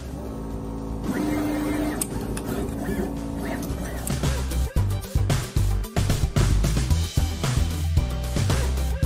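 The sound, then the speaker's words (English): A machine runs on a circuit board coated with solder paste, starting with a whirring motor hum and soft clicks, then breaking into a fast, rhythmic clatter of many sharp mechanical knocks. “And then we take the board with the solder paste on it and we put it in the machine. And we hit the go button.”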